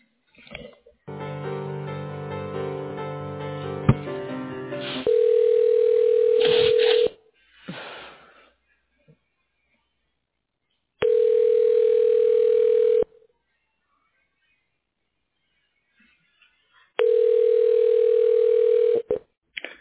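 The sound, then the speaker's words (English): A telephone line tone sounds as an office call is transferred to voicemail. After a few seconds of buzzy line noise come three long, steady, mid-pitched tones, each about two seconds, separated by roughly four-second silences. “I'm going to transfer you to his voicemail. He's not in the office.”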